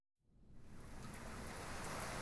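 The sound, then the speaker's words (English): Rain falling on a gloomy day, a dense steady hiss that swells in from silence and then holds constant and even, with no voices. “It's rainy again today. 3 days of rainy weather.”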